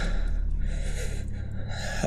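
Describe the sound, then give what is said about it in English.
A person draws in a long, deep breath: a steady, breathy rush lasting about two seconds over a low constant hum. “breathe. In.”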